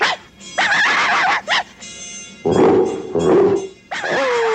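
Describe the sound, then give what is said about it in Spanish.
Dogs howling and yipping in the night to raise an alarm: several separate bursts of wavering, tonal cries and whimpers, each separated by brief pauses, loud and close. “Ahora nos toca a los perros. Usemos el aullido nocturno. ¡Yo daré la alarma!”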